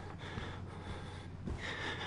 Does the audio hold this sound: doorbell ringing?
no

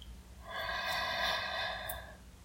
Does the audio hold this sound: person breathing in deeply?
yes

